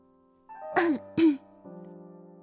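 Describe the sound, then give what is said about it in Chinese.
A light cough comes from outside a stone pavilion: two short, soft throat-clearing coughs in quick succession, heard alone over a faint steady tone. “石亭外轻轻的咳嗽声传来”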